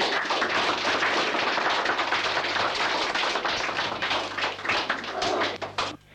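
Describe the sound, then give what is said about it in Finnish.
Dense audience applause after a radio play, a loud, unbroken wash of many quick claps that holds steady and then tapers off at the very end. “Esityksemme oli valitettavasti huono, antakaa aplodeja.”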